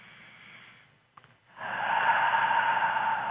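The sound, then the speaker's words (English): A deep breath, heard alone as a long, breathy rush that swells after a brief quiet pause and then holds steady and fairly loud to the end. “Take a deep breath.”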